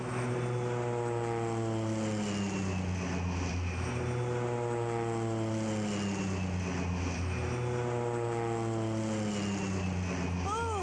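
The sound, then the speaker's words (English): A propeller airplane climbs with a loud, continuous engine drone, its deep harmonic hum holding steady while the pitch wavers. “Crazy pilot. What's he doing? Well, tell him to stop. Crazy fool, climbing like that?”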